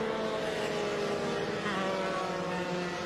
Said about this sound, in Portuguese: E aí a gente vai vendo os carros já passando num ritmo mais lento com essa bandeira amarela.